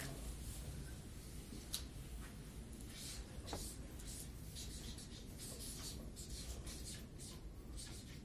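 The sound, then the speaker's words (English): Writing on a board: faint, scratchy strokes come in many short bursts, mostly in the second half, over a steady background hiss. “So I'm going to write it on the board.”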